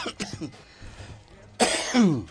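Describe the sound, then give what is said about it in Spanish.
A person's harsh cough bursts out loudly near the end, following quieter low murmuring and a few soft breaths. “Me agarró la tos.”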